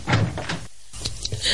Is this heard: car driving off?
no